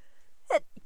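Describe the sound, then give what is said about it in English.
A single short sneeze, a sudden breathy burst rising out of near silence, followed by a softer brief sound; quiet overall and with no other voices. “well, there's one of those things I can't control. I had to sneeze and I can't edit it out.”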